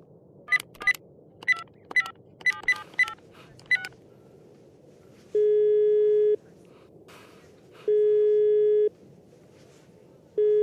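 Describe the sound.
An outgoing telephone call: a quick run of keypad dialing tones, then steady one-second ringback tones repeating with short pauses between them, and no voices.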